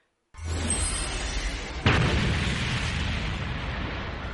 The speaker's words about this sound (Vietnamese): Tiếng nổ mạnh vang lên